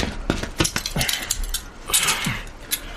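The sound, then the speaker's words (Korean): Handcuffs being put on during a police arrest, heard as a rapid, irregular series of light metallic clinks and clicks, fairly faint throughout. “수갑 채워.”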